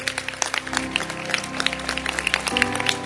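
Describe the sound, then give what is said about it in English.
A church audience stands and claps their hands during a service. Many sharp, quick hand claps sound over sustained musical tones, with the pitch of the tones shifting near the end. “can you stand up and clap your hands for the Bible?”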